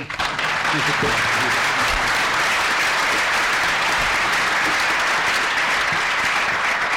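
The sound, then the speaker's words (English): Audience applause for the panelists at a tribute event: steady, loud clapping from many hands that holds an even level for the whole stretch. “I think for my sake, we'll give every panelist a clap.”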